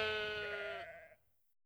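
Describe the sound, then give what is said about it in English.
A lamb on a farm gives one long, quavering, nasal bleat that holds steady before trailing off into quiet. “Oh, look at the lambs.”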